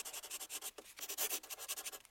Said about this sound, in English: I'm just writing something down.